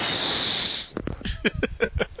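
Breath pushed straight into a microphone gives a rapid run of short, gusty puffs, following a steady hiss at the start.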